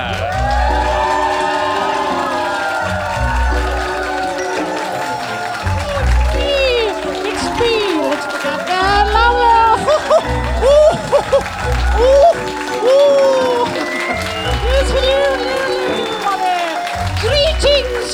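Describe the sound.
Audience applause and cheering at a live show in London as a stage host is welcomed on, dense clapping mixed with whoops and shouts that stays loud from start to finish.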